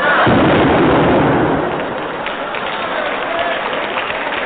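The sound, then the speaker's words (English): Cannon firing a cannonball as a radio comedy sound effect: a loud boom bursts out near the start, then gives way to a sustained, rough rumbling that carries on steadily to the end. “he's opened fire, Dutch. Why? There's a cannonball coming.”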